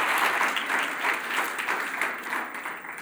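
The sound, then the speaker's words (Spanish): Applause from a church audience during a sermon: dense, steady clapping from many hands that holds throughout and eases slightly toward the end. “¿Por qué no le da un buen aplauso a ese buen Señor?”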